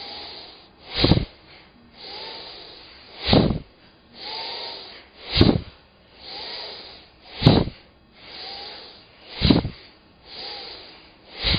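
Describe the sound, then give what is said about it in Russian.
Slow kapalabhati-style yoga breathing, with the muscles contracted as in kriya yoga: forceful hissing exhalations through the nose come about every two seconds, each a sharp snorting burst followed by a quieter inhale. “Как в Капалабхате, но только еще и мышцы, как в крия-йоге, согнулись. Затем вдох. Ну и вот так постепенно начинаем медленно, как бы нехотя.”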